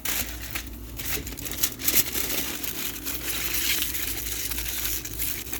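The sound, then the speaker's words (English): Food is wrapped in aluminium foil beside a grill with coals, giving a dense, steady crinkling and crackling rustle that runs throughout at moderate loudness. “Wrap them in foil.”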